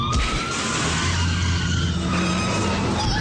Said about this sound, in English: I think he's trying to drive us off the road! We are off the road!